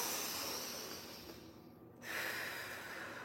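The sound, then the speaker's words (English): Deep breaths in and out during a calming breathing exercise: soft, airy rushes of breath, with a brief quieter lull in the middle before the breathing swells again. No talking. “Let's take a deep breath right now. Exhale, another deep breath.”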